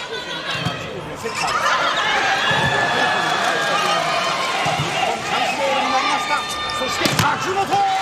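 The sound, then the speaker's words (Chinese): A volleyball is served and struck during a match, heard as a few sharp, brief ball impacts over loud, continuous crowd noise. “好，发球。好防。”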